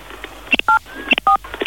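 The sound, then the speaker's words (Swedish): Telephone keypad tones as buttons are pressed on a phone: a few short, clear dual-tone beeps in quick succession, mixed with light clicks of the keys. “Om du trycker på 3 valfria knappar på din telefon och du gör det”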